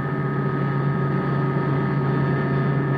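Aircraft engine drone as the plane climbs away from the runway near Ronda, heading east. A loud, steady hum with strong tonal bands runs unbroken throughout, and no one speaks.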